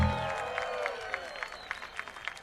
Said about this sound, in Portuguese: Eu queria uma salva de palmas para Will Stort nos teclados, senhoras e senhores.